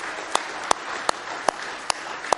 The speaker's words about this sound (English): Now let's give him a good hand clap of praise tonight.